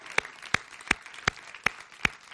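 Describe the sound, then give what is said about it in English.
Hands clap six times at a slow, even rhythm, each clap sharp and distinct with quiet gaps between, as a round of applause is offered to helpers who spent the whole day there. “But really, we need to offer them a round of applause because they spent the entire day here yesterday.”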